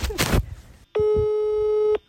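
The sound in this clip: A telephone ringing tone while calling someone: one steady, buzzing electronic tone about a second long, starting and stopping abruptly. A burst of rough noise comes before it.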